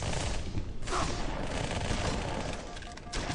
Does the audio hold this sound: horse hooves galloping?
no